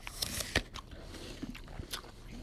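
A crisp bite into a raw apple gives one sharp crunch, followed by softer, irregular crunching chews, fairly faint and with no talk.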